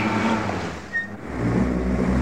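Rumbling vehicle noise from a schnapps cart driving over a sack of grapes: a loud, continuous, engine-like roar that dips briefly in the middle and then swells back up.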